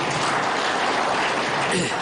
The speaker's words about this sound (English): Can we also give him a hand of applause?